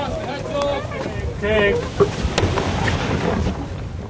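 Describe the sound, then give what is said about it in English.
Wind and water noise surround the tall ship Friends Goodwill, a Great Lakes vessel with a costumed crew, as it sails out from the dock, with people talking over the steady rush. “As Friends Goodwill left the dock, he had to get back to work”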